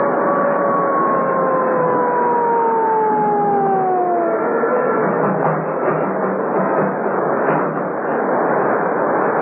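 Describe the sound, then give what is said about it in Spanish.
A police patrol car siren on a coast road: a wailing, band-limited tone slides steadily downward for a few seconds over a dense, muffled engine rumble, then gives way to the continuing noisy rumble. “al escuchar el ulular de una patrulla que se acercaba por la costa”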